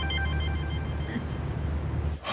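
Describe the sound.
A telephone rings with a steady electronic tonal trill that fades out after about a second, leaving a low background hum that ends in an abrupt cut.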